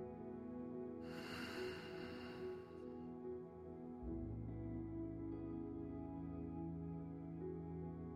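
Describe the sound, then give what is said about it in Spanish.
A single slow breath, drawn in through the nose and let out through the mouth, makes a soft airy rush lasting under two seconds, followed by a quieter low exhale over a steady sustained tonal background. “Inhala con tu nariz. Exhala por la boca.”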